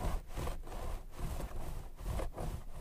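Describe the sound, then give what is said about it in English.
ASMR hair brushing and scalp massage: steady, rhythmic bristle strokes rasping through hair, each stroke a soft scratchy swish, repeating evenly and fairly quietly throughout. “This is scalp massage and hair brushing. ASMR. This is hair brushing.”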